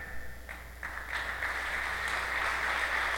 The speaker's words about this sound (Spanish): Aplausos para Andrea.